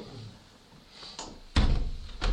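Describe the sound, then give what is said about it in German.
A window being shut: a light rattle of the frame, then two solid thumps as the sash presses closed, short and fairly loud, with no speech. “Ja, wir können die Fenster wieder auch schließen. Wir können es ja ein bisschen gekippt lassen, damit noch etwas Luft hereinkommt.”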